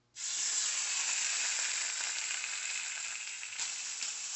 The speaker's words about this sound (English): So I'm going to start with cooking the bacon.